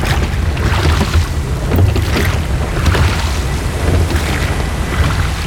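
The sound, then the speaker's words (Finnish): Waves lapping with a distant ship's engine rumble beneath, a continuous wash of rough, wind-like noise over a steady low drone, fairly loud and without voices. “Ei oikeastaan mitään muita ääniä kuulu kuin laineiden liplatus. Ehkä tuolta välillä saattaa joku tommonen laiva jyrinä jostakin kauempaa kuulua.”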